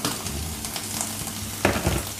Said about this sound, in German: Jetzt kommt Tomatenmark. Wir hatten ja gesagt, zwei Esslöffel.